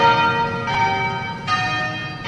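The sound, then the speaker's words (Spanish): Church bells ringing at noon from the Anglican cathedral of St George in Cape Town. Fresh strikes come about every second over a dense, sustained metallic hum of lingering overtones. “Las campanas sonaron al mediodía de este lunes desde la Catedral Anglicana de San Jorge en Ciudad del Cabo para honrar al arzobispo emérito Desmond Tutu”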